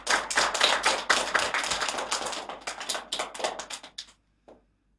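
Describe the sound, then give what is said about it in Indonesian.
An audience applauds to welcome a young speaker about to give a speech. The clapping is dense and lively, then thins and stops just past four seconds, with a single late clap after. “Mari kita sambut Jaden dengan tepuk tangan yang meriah.”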